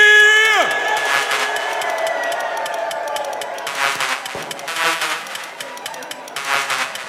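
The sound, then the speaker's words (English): A drum and bass club crowd roars and cheers as a DJ is introduced. A short falling tone opens the stretch, then a sustained crowd roar follows, rising into several louder surges of cheering and shouting toward the end. “Can you please make the most fucking London noise? Raise it up for the one we call Bad Company!”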